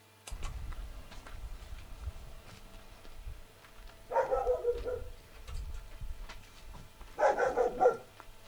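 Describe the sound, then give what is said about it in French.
Dog barking in two short bursts of a few barks each, over a low steady rumble and scattered faint ticks. “Un chien. Ce serait donc un chien.”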